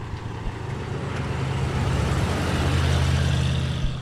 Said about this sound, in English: Here comes another one of those big flat tractor cars. Okay, so listen to this. Listen how loud this shit is.